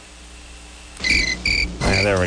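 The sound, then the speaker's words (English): Crickets chirp in Virginia at 2 a.m., heard over a phone: two bursts of thin, high, steady chirping, followed by a voice speaking. “Virginia crickets, 2 o'clock in the morning.”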